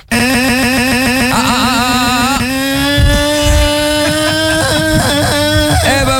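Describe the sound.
A scooter engine revs hard right after a difficult restart when it nearly flooded, a loud buzzing drone that climbs in pitch over the first couple of seconds, then holds a high, steady whine with small wavering blips.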